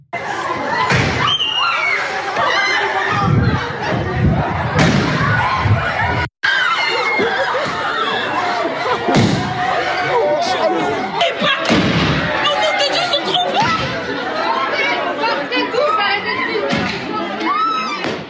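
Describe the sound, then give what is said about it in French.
Loud firework mortar bursts go off inside a high school in Seine-et-Marne, with a few sharp bangs cutting through continuous panicked shouting and chatter from students. “lycée à Chelles, on est en Seine-et-Marne, tir de mortier d'artifice à l'intérieur du lycée.”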